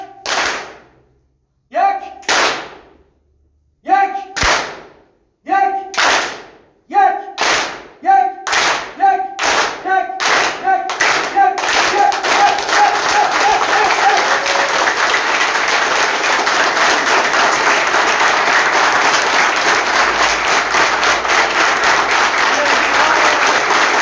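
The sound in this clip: Hands clap in unison at a group meeting: sharp, separate claps that come faster and faster until they blend into loud, continuous applause.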